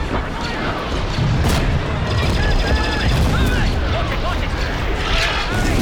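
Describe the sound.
Laser blaster fire in a battle, with shots deflected by a lightsaber: a loud, dense barrage of rapid zapping blasts over a rumbling background that continues throughout.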